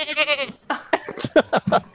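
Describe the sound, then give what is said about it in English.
A couple of goats run past, bleating. Several short, wavering, nasal bleats follow one another in quick, uneven succession, loud and clear. “a couple goats. Nice. They run past.”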